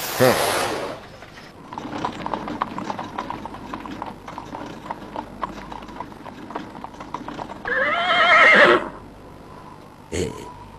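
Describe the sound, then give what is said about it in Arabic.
A horse-drawn carriage arrives to the steady, rhythmic clip-clop of hooves, followed near the end by a loud, brief whinny. “لقد أتت عربة أخرى، هذا أمر رائع.”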